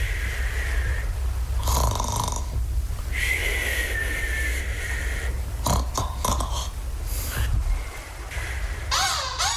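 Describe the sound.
Snoring of a tired boy: a few loud, rasping snores in uneven bursts over a low, constant background rumble, with some higher wavering tones near the end.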